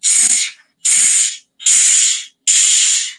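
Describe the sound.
Breath is pushed forcefully out through pursed lips in a breathing exercise, making four loud, airy hisses. Each lasts about half a second to a second, with short silent gaps between them.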